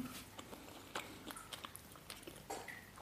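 Soft wet chewing and biting of fluffy pancakes, a few quiet squishy mouth sounds spaced irregularly over a faint steady background, with no speech.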